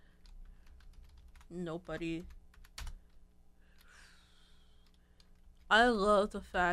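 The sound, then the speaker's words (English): Computer keyboard typing during a login: faint, scattered key clicks between and under short bursts of a man's speech. “hold on, you can hear me typing as I'm trying to log in to Twitter”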